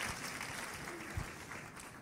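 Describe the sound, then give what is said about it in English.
A church audience applauds, the clapping faint and steady throughout with one slightly stronger thump near the middle. “Is that worth a clap? There it is.”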